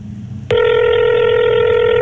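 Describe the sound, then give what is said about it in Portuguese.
A telephone ring cuts in abruptly after a short lull. It is a single loud, steady electronic tone with stacked harmonics that holds unbroken to the end. “Imagino que é sexta-feira e o seu telefone toca. Um toque.”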